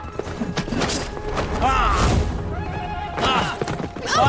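A horse neighs twice in loud, wavering whinnies that rise and fall in pitch, set over a dense, continuous low rumble.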